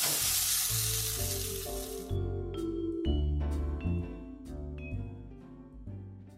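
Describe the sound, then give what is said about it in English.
Raisins and onion being mixed in a hot pan after the flame is turned off, with a loud sizzle for about two seconds. Music plays throughout and continues alone after the sizzling stops. “And I'm going to turn off the flame. Give it a mix. The raisins are going to soften in the heat of the onion.”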